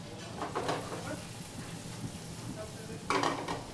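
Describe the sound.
Steady hiss of potatoes frying in fresh fat in a pan, with a few bursts of scraping and clatter from a utensil, the loudest burst near the end.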